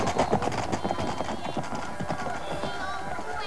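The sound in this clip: Horses' hooves clip-clop rapidly as red-coated riders pass, a dense run of sharp hoofbeats that stays fairly loud across the whole stretch.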